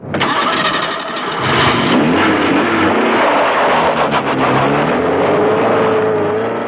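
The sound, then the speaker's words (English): Car engine starting up and revving, a loud, continuous rumbling roar with rising pitch sweeps as it revs, heard alone without talk. “Watney got into his car and was about to start it up when a bright light flashed into the driving mirror.”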